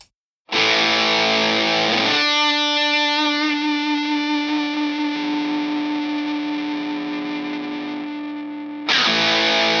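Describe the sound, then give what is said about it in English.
Electric guitar, a Fender Tom DeLonge Stratocaster, played through an RSH-02 distortion pedal from a Copenhagen maker. It sustains a thick, buzzing, heavily distorted chord for several seconds, slowly fading, before another loud chord is struck. “This is the RSH-02 pedal by Riffs Musical Instruments out of Copenhagen, Denmark.”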